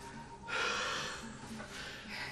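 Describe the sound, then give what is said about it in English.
A voice imitates a sweaty man's heavy panting with a couple of loud, rasping, breathy gusts and no talk. “he's got this like panty, you know, kind of heavy, like heavy breathing man”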